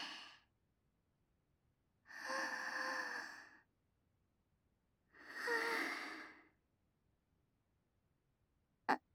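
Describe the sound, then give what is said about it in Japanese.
Slow, deep breathing: two long, soft, airy breaths separated by quiet pauses, following the tail of an earlier breath, with a brief sharp click at the very end. “深呼吸して”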